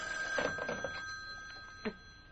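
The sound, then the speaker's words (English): A telephone bell rings in a few short bursts, moderately loud against a quiet background. “No, I'll get it. At least I'm safe on the phone.”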